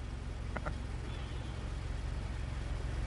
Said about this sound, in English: And that's John Hamm driving up at the end of that scene.